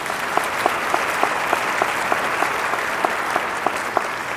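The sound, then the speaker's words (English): Audience applause welcomes a guest's wife as she stands at a gathering honoring a visiting guest artist. It is a dense, even patter of many hands at moderate level, with a few sharper claps standing out at intervals. “Laura, would you stand so that we could welcome you and give you a hand as well?”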